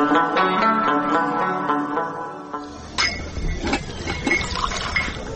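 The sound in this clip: Tea being poured to fill a cup, a splashing liquid stream joined in the second half by a few sharp clinks of cup or dishware, following a sustained tonal passage.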